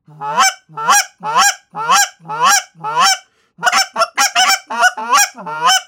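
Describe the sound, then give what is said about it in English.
Goose calls blown by hand to imitate geese: six slow, deeper honks from a straight meat honker call, a brief pause, then a quicker run of higher-pitched cackling notes from a straight meat cackler call, loud and alone. “Actually, I'm gonna blow the straight meat honker first. It's a deeper sounding call. Now listen to this straight meat cackler. It's gonna be higher pitch.”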